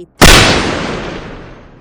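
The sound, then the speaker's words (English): A single loud gunshot from a handgun, a sudden sharp blast followed by a long, steadily fading tail, with no talk over it. “He's shot himself!”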